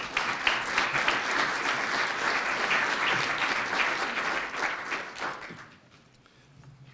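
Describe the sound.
An audience gives sustained applause to welcome a speaker at a Wisconsin event, dense steady clapping that holds for about five seconds before tapering off.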